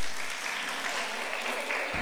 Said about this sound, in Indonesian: Oke, tepuk tangan lagi dong.